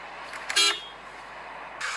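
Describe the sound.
A car horn honks once, a short, bright toot over a steady background hiss.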